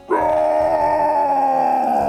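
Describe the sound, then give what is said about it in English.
A voice imitates a rageful roar from a chained creature breaking free: one loud, sustained, rough-edged cry holding a steady pitch for about two seconds. “lets out a rageful roar”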